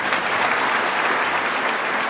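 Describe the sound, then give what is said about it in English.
An evangelical association audience applauds with steady, dense clapping that holds at an even, fairly loud level throughout, with no distinct voices standing out. “That's pretty weird for a crowd to cheer on a father wishing for the death of his children.”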